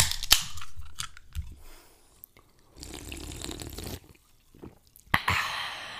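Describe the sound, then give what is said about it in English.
Two people pop open 16-ounce Coca-Cola cans at the same moment and drink: a sharp opening crack, then fizzing, sipping and swallowing noises, with another sharp snap near the end. “That was both of us at the same time opening 16 fluid ounces of Coca-Cola and drinking it in guns.”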